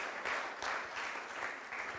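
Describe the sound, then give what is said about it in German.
Applause from an audience at a Christian Sunday service: steady, dense clapping that rises in a few gentle swells, with no talk over it. “Das verdient Applaus für Gott”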